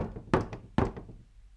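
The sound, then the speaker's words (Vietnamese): Two quiet knocks on a wooden door, each a short, hollow thud, spaced roughly half a second apart, followed by near silence. “Định đi xuống giường thì đột nhiên ngoài cửa lại vang lên những tiếng lộc cộc.”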